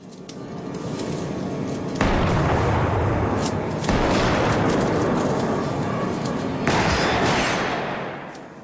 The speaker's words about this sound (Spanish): Andrea, esposas doradas en mano, pierde el arma y recibe un disparo.